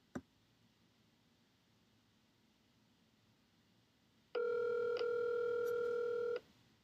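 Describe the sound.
A telephone call rings out unanswered before going to voicemail: a faint click, a stretch of quiet line hiss, then one steady ringback tone lasting about two seconds, after which the line falls quiet again.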